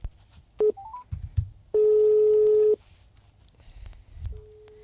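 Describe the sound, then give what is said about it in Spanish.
Telephone keypad beeps and a ringing tone as a dropped call is redialled: a short tone, a few quick stepped beeps, then one steady tone about a second long, and another tone starting near the end over low rumble. “Se cortó la llamada con Eugenia. Dale, vamos a intentarlo nuevamente.”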